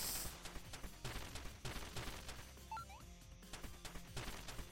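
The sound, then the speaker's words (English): Training dummies being destroyed in a video game: a quiet, rapid run of sharp smashing and gunfire-like impacts, many crunching hits in an uneven rhythm from start to finish. “And now I have to destroy all the training dummies. What counts as destroyed? Oh, they disappear when they're destroyed.”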